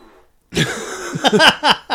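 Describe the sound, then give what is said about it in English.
A fake fart machine or whoopee cushion lets out a sudden, loud buzzy blast, then a run of shorter sputtering, wobbling bursts with a raspy, reedy tone. “That sounded like one of those fake fart machines. Because there's loads of like farts. That someone got goes, a whoopee cushion. And that's what that sounded like.”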